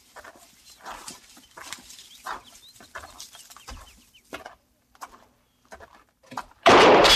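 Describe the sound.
A gunshot fired from a hut, with a loud, sudden blast cutting in near the end, after a stretch of quieter outdoor sounds with faint clucking and bird-like calls.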